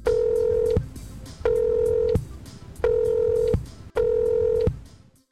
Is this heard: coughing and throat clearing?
no